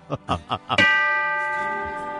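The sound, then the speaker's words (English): A bell is struck once after a few short voiced sounds, giving a bright metallic clang that rings on as a clear, sustained tone and slowly fades. “Hit the bell.”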